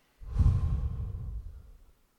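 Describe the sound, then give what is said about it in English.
A deep breath drawn and let go, heard as one long, soft, breathy rush of air that swells quickly and then tapers away over about two seconds. “Let's take a deep breath in. Deep breath out.”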